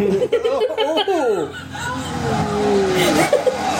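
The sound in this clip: A car driving through leaves: loud engine-like pitched sweeps that fall in pitch, followed by a broad, steady rustling and rushing noise that continues to the end.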